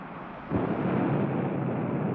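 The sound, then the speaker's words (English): A rocket blasts off with a sudden deep roar that bursts in and then holds as a loud, steady, rumbling wall of noise to the end. “Can he survive that blast off?”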